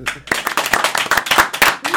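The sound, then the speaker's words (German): Studio audience clapping for a guest introduced on a television programme: quick, irregular claps from a modest number of hands, with voices talking over them. “Bitte einen großen Applaus im Studio für Boxy, die Nummer 1 unter den Sendungswirten.”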